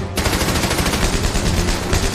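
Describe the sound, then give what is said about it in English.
Machine gun fire in a 1945 battle on the German Gothic Line in northern Tuscany: one loud, unbroken burst of rapid shots that fills the whole clip at an even, rattling pace, with no voices. “Second Lieutenant Vernon Baker and his platoon must get past the machine gun fire. He unleashes his barrage.”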